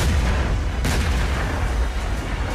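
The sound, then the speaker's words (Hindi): Explosions from Russian missile strikes on Kyiv, Ukraine, during a heavy night attack: a continuous low, rumbling roar with one sharp blast cutting through partway in, with no voices. “Missile हमलों के बाद राजधानी Kyiv में कई जबरदस्त धमाकों की आवाजें सुनाई दी”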